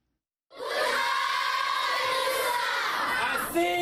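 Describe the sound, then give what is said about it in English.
Primary school children sing together at the Minawawa refugee camp in northern Cameroon, greeting a visiting minister with a song. The sustained, bright group voices begin after a brief silence, stay loud and steady, then stop just before the end. “Primary school kids at the Minawawa refugee camp in northern Cameroon sing to welcome Nigerian Interior Minister Abdurrahman Dambazou”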